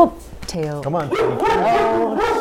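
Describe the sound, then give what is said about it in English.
A dog gives a few short, high yips and whining, whimpering cries, loud and quickly repeated. “we don't edit, but we may need to edit this little barking out.”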